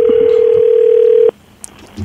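A telephone dial tone sounds as a call is placed on a phone line, a loud, steady single tone that cuts off abruptly after about a second, followed by near-silence and a faint click.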